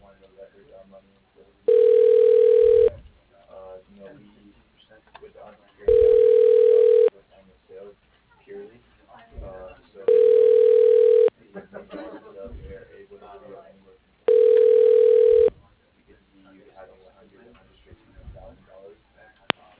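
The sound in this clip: A telephone ringing tone plays while a call is transferred to an office line. Four steady, evenly spaced beeps each last about a second, with faint talk and low background sound between them.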